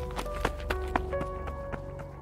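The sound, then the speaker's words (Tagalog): Quick running footsteps used as a sound effect in a horror story, a rapid series of sharp thuds over a sustained low musical drone. “Natakot ako kaya mabilis akong tumakbo pa uwi sa amin.”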